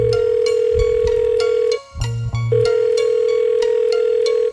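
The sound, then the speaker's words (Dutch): A telephone call rings through on the line. A steady mid-pitched tone is cut off partway by a couple of short beeps, then resumes, with faint regular ticks running underneath. “Zegers belt met Dijkhoff.”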